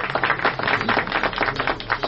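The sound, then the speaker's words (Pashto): A group of people clapping hands in honour of a speaker at a public gathering, a brief burst of brisk, uneven claps that pulse in quick surges for about two seconds. “په افتخاري لاسونه وپړکوئ”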